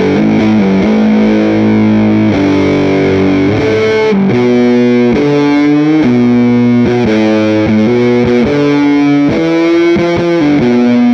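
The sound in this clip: Electric guitar played through a Big Muff fuzz distortion pedal gives thick, sustained, heavily saturated notes. A loud melodic line shifts pitch every half second or so, with no voices.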